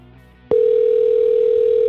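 A loud, steady telephone dial tone starts abruptly about half a second in when calling back and holds one unbroken pitch to the end, after a brief quieter lead-in, with no voices.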